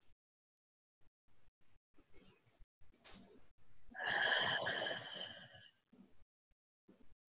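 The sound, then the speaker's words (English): Deep breathing during a guided meditation: a long, airy exhale swells for a couple of seconds amid softer, intermittent breath sounds. The breathing is quiet and no one talks. “Take a couple rounds of breath here.”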